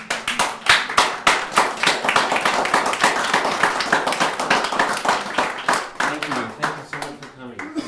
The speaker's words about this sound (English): I feel like we should clap.